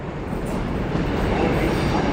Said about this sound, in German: Ich komme am Bahnhof in Mülheim an.